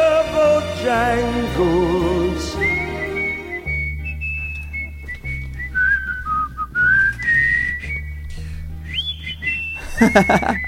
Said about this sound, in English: He whistles up there. I can't hit those with my whistle.